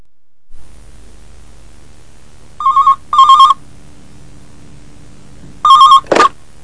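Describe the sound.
A telephone rings as a woman calls a recruitment agency. Two loud double-ring bursts are separated by a few seconds of quiet hiss, each burst made of two short, bright electronic trills.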